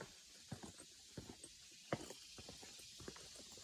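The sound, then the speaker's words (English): Footsteps descend a winding step path in a shaded hardwood forest ravine at Gold Head Branch near Keystone Heights. Many soft, regular footfalls land alone, with no talk. “And there will be many steps to climb down. I'm going down another set of steps.”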